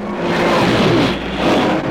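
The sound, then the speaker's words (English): A stock car pops the clutch and speeds off with a loud, continuous engine roar whose tones sweep upward as it accelerates, with no talking. “Ron Howard steals the Superstocker, pops the clutch, and tells the world to eat my dust.”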